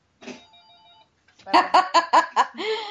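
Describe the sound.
Telephone ringing for an incoming call: a steady electronic tone first, then a rapid series of loud, bright ring bursts that run into a continuous ring at the end.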